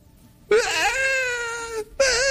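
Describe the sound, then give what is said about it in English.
An adult voice imitates a three- or four-year-old child crying in a tantrum: a loud, wavering, high wail held for over a second, followed by the start of a second wail. “He opens it, he sets it aside, and he throws a tantrum.”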